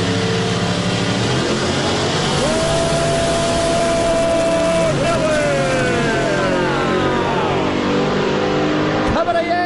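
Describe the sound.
Drag racing cars roar as they accelerate down the lanes, a loud, sustained engine blast with a steady high whine that later breaks into falling tones before cutting off abruptly at the end.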